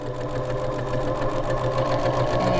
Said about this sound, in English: Right now she is teaching you how to sew.